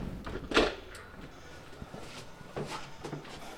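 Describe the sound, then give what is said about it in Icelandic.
Double security doors opening at an access-controlled building entrance. One louder clunk comes early, followed by a few softer clicks and knocks over steady background noise. “Svona nú þurfum við að bíða að því hér eru tvöfaldar dyr, þær geta ekki báðar verið opnar í einu.”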